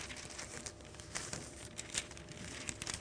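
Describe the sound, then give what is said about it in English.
Faint, continuous paper rustling and crinkling as pages are turned in a torn-up Bible, with a few sharper crackles scattered through the handling. “Okay, this is the problem with tearing your Bible up. I need page 971. Here it is.”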